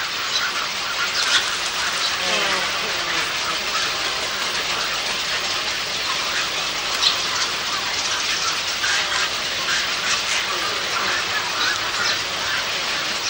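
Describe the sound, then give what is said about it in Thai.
Newly hatched Asian openbill stork chicks beg for food with a continuous, dense chorus of high, raspy chattering calls that stays at an even loudness throughout. “นกปากห่างแรกเกิดมีขนอุยสีขาวบนหนังสีดำและอ้าปากร้องขออาหารอยู่ตลอดเวลา”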